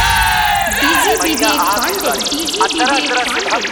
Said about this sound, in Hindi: जितना लोग देवी जागरण में आई बा सभी अपन हाथ उठा के एक बार प्यारा सा जयकारा माई दुर्गा के लगा दी सभी। प्रेम से बोली दुर्गा मैया की।